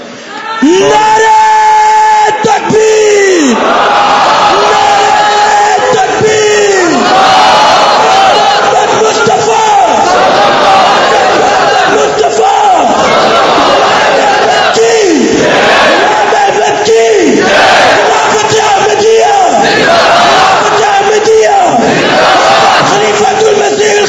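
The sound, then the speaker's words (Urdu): A large crowd shouts an Ansarullah slogan in loud, repeated unison bursts, the massed voices surging in a chanting rhythm over the whole clip. “نانو انصار اللہ کا نعرہ لگاتے ہوئے اس mission کی تکمیل کے لیے ہر قربانی کے لیے تیار ہو جائیں”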